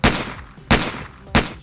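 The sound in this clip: Three sharp, loud pistol gunshot sound effects, evenly spaced about two-thirds of a second apart, each a hard crack with a brief fading tail and no talk.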